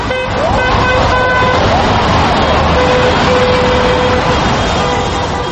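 Car horns honk in support of protesters on snow-filled streets in Moscow, with several steady horn tones overlapping and sounding one after another over a dense, continuous wash of traffic noise.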